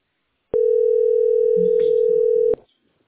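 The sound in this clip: A steady telephone dial tone on a landline call to a post office holds one unbroken pitch for about two seconds, then cuts off abruptly, with faint voices murmuring beneath it.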